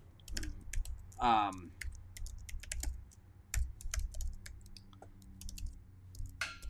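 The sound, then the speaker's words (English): Typing on a computer keyboard: rapid, irregular key clicks that keep going throughout, with a brief voice sound breaking in once. “I'll type it in here.”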